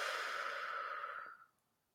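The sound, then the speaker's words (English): A deep belly breath exhaled during a guided breathing exercise: one long, steady, breathy rush of air that holds for over a second, then trails off quickly into near silence. “take a deep breath in through the nose and just do a big deep belly breath for me. Close your eyes. Exhale.”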